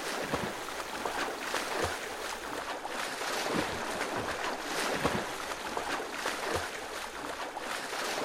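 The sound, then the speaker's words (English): A person swimming through water, with a steady rushing splash and periodic heavier surges as the strokes move the water, sustained at an even level throughout. “This is the sound of somebody swimming.”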